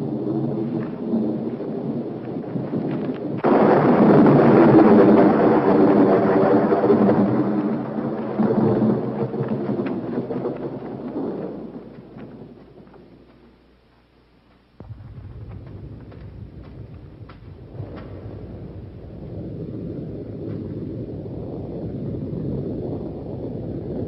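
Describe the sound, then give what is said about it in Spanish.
Thunder from an approaching storm swells into a long, loud rolling rumble, holds for several seconds and then slowly fades. After a brief gap, a steady low rushing noise follows. “Se avecina una tormenta.”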